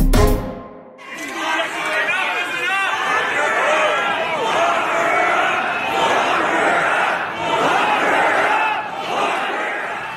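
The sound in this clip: A crowd chants "Lock her up" against Premier Rachel Notley. After a brief near-silent start, the dense, loud mass of voices swells in and holds steady to the end.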